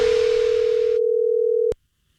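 Telephone dial tone heard on a prank phone call, a loud, steady single-pitched hum that holds unbroken and then cuts off abruptly into near silence, with a faint click at the very end.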